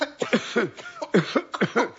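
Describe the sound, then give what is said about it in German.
A man coughing in a rapid fit of many short, harsh bursts in close succession, fairly loud, with no talk over them. “Er hört ja schon auf zu husten.”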